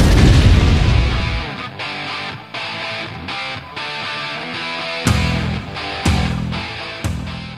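Video game explosions: a heavy, rumbling blast opens, followed by many loud, distorted booms and bursts, some in a steady pulsing series, with no talk over them.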